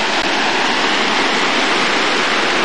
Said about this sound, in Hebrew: מים באים פה מהקרח, עוברים מתחת קרחון אחד קטן, ויורדים פה.